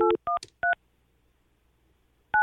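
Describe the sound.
Touch-tone keypad beeps as a telephone number is dialed: three short, crisp dual-tone beeps in quick succession with a brief click among them, then a pause of well over a second before a final beep.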